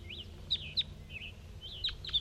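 Caged juvenile bird calling: a few short, high chirps with softer swooping notes between them, faint over a low steady background hum.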